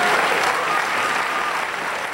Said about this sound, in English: That thunderous applause is exactly what she's looking for.